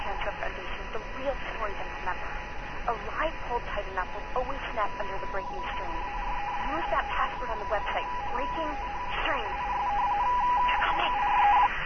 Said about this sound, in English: it was actually interactive, a true voicemail box system. And if you press each one of those buttons, as you heard on there